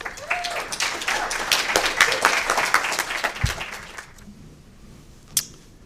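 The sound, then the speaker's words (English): An audience applauds to welcome a professor before his lecture. The clapping stays dense and lively for about four seconds, then dies away into quiet, broken by a single sharp click near the end. “So I'd like you to give a warm welcome to Professor Joseph Singer.”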